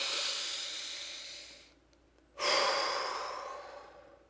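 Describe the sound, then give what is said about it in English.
A person taking a breath: a long, breathy airflow that slowly fades, a brief near-silent pause, then a second breath that starts suddenly and gradually trails off. “Take a breath.”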